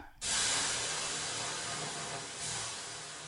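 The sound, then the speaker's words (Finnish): Water thrown on hot sauna stones bursts into a loud, sudden steam hiss that holds, surges again briefly, then slowly fades. “Pistetäänkö löylyä? Löylytään, joo.”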